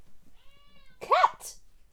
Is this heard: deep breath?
no